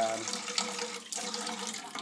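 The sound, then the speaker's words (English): Tap water running into a sink while a pet's bowl is washed up under it, a steady splashing hiss that surges and dips. “And wash up his bowl. Now the joys of washing up.”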